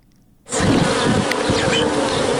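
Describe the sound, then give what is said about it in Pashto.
Honeybees at a bee farm, kept in hive boxes, break into a dense, loud swarm buzz. It starts suddenly after a short quiet moment and then holds as a steady, even drone. “دا د شاتو د مچیو فارم دی”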